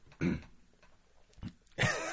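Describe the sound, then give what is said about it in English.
A person clears their throat in a few short, rough, guttural bursts, quiet and separated by brief pauses. “Gotta clear my throat.”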